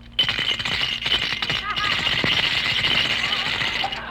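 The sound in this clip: Coins rattling inside a hand-grenade piggy bank as it is shaken: a dense, rapid metallic jangle that runs continuously and fairly loud for a few seconds.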